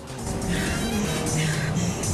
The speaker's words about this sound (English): reverses sharply in her car. She speeds out onto the street.